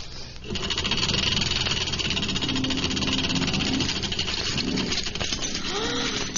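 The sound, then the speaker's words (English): A spinning wheel whirs as straw is spun on it, giving a continuous, fairly loud mechanical hum with a rattling, vibrating texture that holds steady throughout. “He's doing it! He's spinning my straw into gold.”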